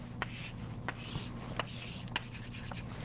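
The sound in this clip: Diagrams are drawn by hand, probably on a board during a lecture. The quiet, continuous scratchy rubbing of strokes is broken by about four sharper marks, over a faint steady hum.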